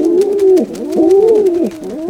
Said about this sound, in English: sightings of royalty, and lots of pigeons.